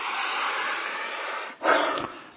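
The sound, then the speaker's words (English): A quick, complete exhale of breath, one short, forceful rush of air let go all at once, rising sharply and then trailing off. “That's what you want to get close as you can to, is the ability to set your exhale free, to let the exhale go quickly and completely.”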